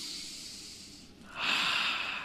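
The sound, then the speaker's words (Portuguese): A person takes a deep breath, a soft, airy hiss that swells partway through and holds steady to the end. It is quiet, with no talking. “Respira fundo”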